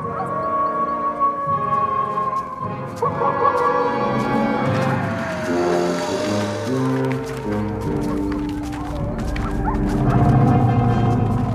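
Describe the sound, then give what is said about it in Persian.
Wolves howling in a continuous loud chorus of drawn-out, overlapping tonal howls that swell slightly toward the end. “صدای زوزه ها بلندتر شده. اون گرگا نزدیکتر شدن.”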